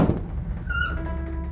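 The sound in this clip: Study door creaking as it is opened from inside: a dull thunk, then a short, high squeaky creak, brief and with no voices.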